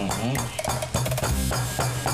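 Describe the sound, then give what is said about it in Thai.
Ingredients pounded in a mortar for papaya salad, several dull knocks of the pestle mixed with clattering, under people talking. “เม็ดมันยัง ต้องตำอย่างเงี้ยถ้าตำอย่างเมื่อกี้มันกระเด็น”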